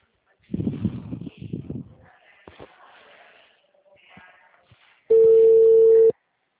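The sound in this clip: Telephone ringback tone sounds while a caller waits for the other person to answer: one steady, loud tone about a second long, after a stretch of soft rustling and handling noise.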